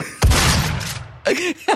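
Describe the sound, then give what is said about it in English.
Shotgun sound effect from the 2016 video game Doom: one heavy, booming blast with a long decaying tail, followed by two shorter mechanical clacks. “It's the Doom 2016 shotgun sound effect.”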